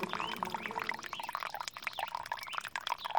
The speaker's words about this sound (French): Écoute le bruit de l'eau qui coule.